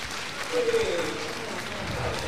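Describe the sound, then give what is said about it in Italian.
An audience at a music audition claps, even and moderate, with a single voice briefly heard over the applause. “Caput, questo è l'applauso per Caputo, un po' meno caldo, che ha ottenuto su Facebook 99 mi piace.”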